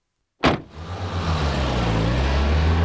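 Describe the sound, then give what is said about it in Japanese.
A taxi car pulls away quickly to chase another car. A sharp onset gives way to a loud, steady engine rumble and road noise that build and hold to the end, with the low engine note wavering slightly. “タクシー！ 毎度、どちらまで？ あの前の派手な車、追って、急いで。”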